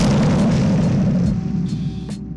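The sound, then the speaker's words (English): A bomb drop sound effect: a loud, dense rumbling roar that holds for about a second, then thins out and fades, with a few sharp bursts in its tail. “Without further ado, let me get a bomb drop,”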